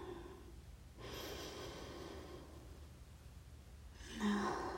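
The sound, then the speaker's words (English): Deep breathing in and out: slow, soft airy breaths, one long breath followed by a pause, then another breath beginning near the end, all faint and without talk. “And out. Breathe in.”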